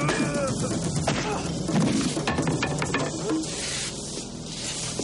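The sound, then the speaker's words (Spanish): Crashing impacts and breaking glass from a movie fight, as a man is smashed face-first into a window, in a dense, loud, noisy mix with a few sharp hits. “Richie y lo estampa contra una ventana rompiendo los cristales con su rostro.”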